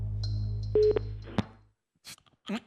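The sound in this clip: A telephone call is dialed, giving a few short electronic tones and beeps, then a steady ringing tone. After a gap, a brief voice answers.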